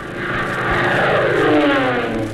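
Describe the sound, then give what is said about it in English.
Aircraft engines of a squadron of Nazi dive bombers produce a loud, steady droning roar that holds throughout, with no voices. “Fighting their way through a squadron of Nazi dive bombers, Hop and Tank crash-landed at the Freidorf Air Base”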